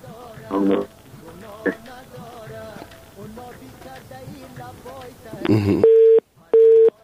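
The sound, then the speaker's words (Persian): A telephone busy tone follows a dropped call: two steady, mid-pitched beeps with an even gap close out the stretch, coming after a stretch of people talking and a short burst of noise. “متاسفانه که تماس ما با صفی الله جان امانی قطع شد”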